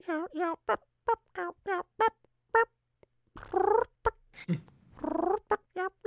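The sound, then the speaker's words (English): Imitated turkey purring on a call: a quick run of short, bright, tonal clucking notes, then longer rolling purrs, loud and separated by brief gaps, with no talk. “I'm feeling good about my purr. I think I've drastically improved my purr since the end of turkey season.”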